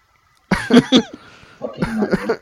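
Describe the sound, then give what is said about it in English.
Harsh coughing in two clustered bursts, a few sharp coughs first, then a rougher run of several more after a brief pause, fairly loud and alone with no talk. “Sorry. I keep coughing.”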